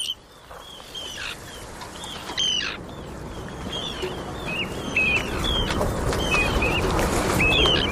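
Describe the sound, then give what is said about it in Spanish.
Arctic tern calls: many short, harsh, high-pitched cries repeated at irregular intervals over a steady, noisy background. “Pues este es el charrán ártico”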